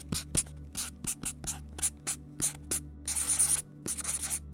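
Writing with a Sharpie marker: many short, scratchy strokes in quick, irregular bursts, with a longer stretch of continuous rubbing near the end over a faint low hum.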